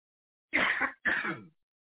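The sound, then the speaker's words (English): A person clears their throat in two short, harsh, rasping bursts with a brief gap between them, heard alone. “I'm sorry, I got something in my throat.”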